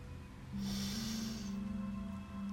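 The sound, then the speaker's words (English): A single slow, deep breath is drawn in, a soft airy inhalation during a guided relaxation exercise, heard faintly over a low steady hum. “As you begin to settle into a pleasant, relaxing state, take a deep breath in.”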